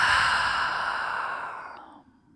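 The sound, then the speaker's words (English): A group exhales together through open mouths during a guided breathing exercise: one long, breathy whoosh that starts strong and gradually fades out over about two seconds. “we'll take a big breath together. Inhale. Open the mouth. Exhale.”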